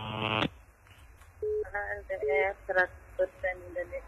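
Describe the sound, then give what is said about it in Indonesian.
Telephone tones are heard on a radio call-in line as a dropped call is redialed: a loud buzzy tone at the start, then a series of shorter beeping tones at uneven intervals. “Halo, LDR. Terputus, dicoba kembali. LDR.”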